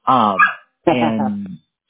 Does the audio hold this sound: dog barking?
yes